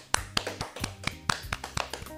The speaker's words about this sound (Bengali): ইন্দ্রাক্ষীর জন্য একটা হাততালি হয়ে যাক।